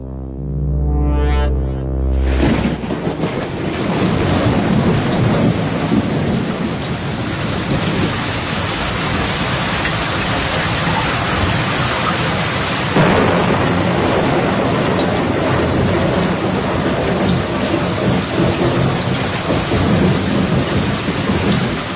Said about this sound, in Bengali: বৃষ্টি, এই কদিনের বৃষ্টি কেমন লাগছে আপনাদের?